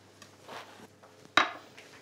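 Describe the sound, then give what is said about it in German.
A knife cuts beetroot finely on a board, with a few soft, faint strokes followed by one sharp, crisp knock of the blade against the board, then quiet taps. “Und zwar werde ich die rote Beete jetzt so ganz fein schneiden.”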